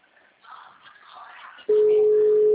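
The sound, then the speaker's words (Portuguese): A telephone busy tone cuts in abruptly after a soft, muffled stretch, then holds as a loud, steady single-pitch tone to the end. “Ô, Nath, tô tentando ligar pra uma moça aqui.”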